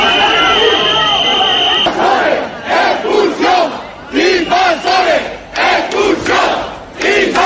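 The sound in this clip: An angry crowd outside hotel doors in Ceuta, many voices shouting in loud rhythmic chanted bursts, preceded by a steady high whistling tone that holds for the first two seconds.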